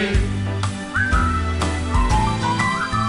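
Whistling carries a bright, gliding tune in short phrases over a steady instrumental backing with deep bass, lasting about three seconds.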